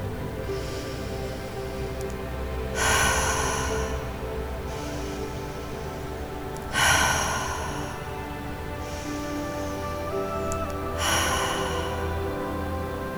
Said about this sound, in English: We'll start today's practice with some cleansing breaths.